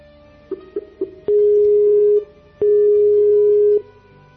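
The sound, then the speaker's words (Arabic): Telephone line tones as a call comes in: three short pulsed beeps, then two long, steady mid-pitched tones separated by a brief gap, with nothing else heard. “معنا اتصال تليفوني. الاتصال التليفوني من مين؟”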